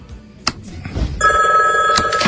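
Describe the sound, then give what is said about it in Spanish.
A landline telephone that has been calling all night rings with a steady, bright electronic tone. The ring starts partway through after a quieter opening and continues to the end. “Ajá, ha llamado toda la noche. Desconecta el teléfono.”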